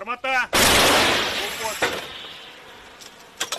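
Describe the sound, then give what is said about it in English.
An old American M101 howitzer fired by Ukrainian forces lets out a single heavy, explosive blast that rings and decays over more than a second, with a brief voice just before it. “Their gun is an old American howitzer, M101. This same type of weapon was used in World War II. Now, Ukrainian forces rely on it to stop Russian troops.”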